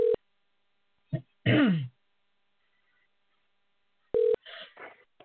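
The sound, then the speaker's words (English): A phone number is dialed on a cell phone for a call: two short, faint electronic beeps a few seconds apart, separated by a throat clearing and a brief low vocal sound. “Let's dial him up right now. All right. And we're dialing.”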